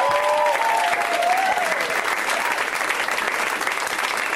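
Audience applause and cheering for a comedy show's host on her birthday, a dense, steady roar of clapping from start to finish, with whistles early on.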